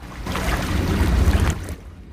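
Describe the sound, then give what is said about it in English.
Water churning by a stone jetty, a loud, rough wash of waves and wind that builds slightly in force, then drops away quickly to near quiet. “The water seems to get a little angrier, then calm down again.”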